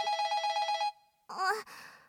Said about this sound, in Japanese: 電話だよ。最近電話ずっと鳴っててうるさいね。